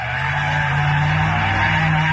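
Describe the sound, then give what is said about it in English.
Tires squealing and engines roaring as cars drift at high speed through a street intersection, a loud, continuous, unbroken screech over a low engine drone. “It's the sound of rubber meeting the road. For the third weekend in a row, aggressive drivers took over an intersection in Chatsworth for some high-speed drifting, burning tire marks into the pavement.”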